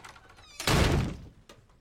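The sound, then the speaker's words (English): A door slams in a TV sitcom scene as a character storms away from the dinner table: one heavy, loud thud that lingers briefly before fading, then a faint knock. “George Cooper, played by Lance Barber, storms away from the table and slams the door.”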